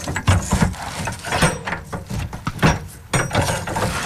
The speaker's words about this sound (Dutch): Ja, er staan hier nu een stuk of 5 blauwe containers op een rijtje. Deze is nog dicht. Laten we even kijken wat daarin zit. Als we die even openmaken.